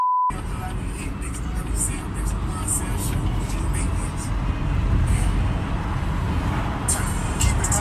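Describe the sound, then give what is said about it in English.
Steady road and wind rumble inside a BMW driving with the window rolled down, a continuous low roar that holds at an even level throughout. “On the way back from the store, I fucking rolled down my window of this BMW that I'm driving and film it for you.”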